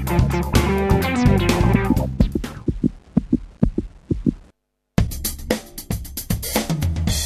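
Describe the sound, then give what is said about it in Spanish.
A heartbeat thumps in a run of regular low beats, placed between louder passages of music, with a brief silent gap before the music returns. “Cuando arrimás la oreja a La Colectiva, vas a escuchar latidos”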